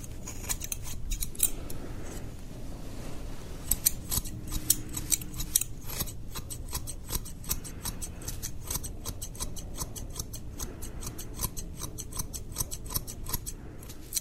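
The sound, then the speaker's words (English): Scissors snip hair at a barber in a quick, unbroken run of many crisp metallic clicks that continues steadily throughout. “I'll be cutting your hair today.”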